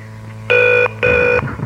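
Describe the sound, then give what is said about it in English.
A telephone ringing tone sounds as a call waits to be answered: two steady, buzzy electronic rings of equal length, separated by a short gap, then quieter noise. “we might have dialed the wrong number, so we're going to try her again.”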